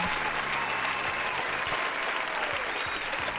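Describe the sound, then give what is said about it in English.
A live studio audience applauds with dense, even clapping that stays loud and steady from start to finish. “Live studio audience. That was good.”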